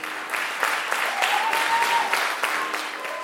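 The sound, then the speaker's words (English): An audience welcoming a live storytelling show breaks into sustained applause, a dense and even wash of many clapping hands that holds at a steady loudness throughout. “Put those hands together and welcome to Black Trans Stories Matter.”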